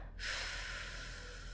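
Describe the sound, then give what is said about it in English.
A deep inhale draws smoke from a cork-tip cigarette into the lungs: a single steady, airy breath lasting over a second, faint and alone. “Deeply inhaling, filling my lungs.”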